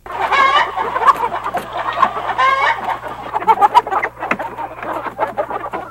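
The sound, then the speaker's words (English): Chickens cluck continuously in a busy, uneven stream of short, mid-pitched clucks, with a few higher squawking calls rising above them. No voices are heard. “Chicken has declared jihad on us all!”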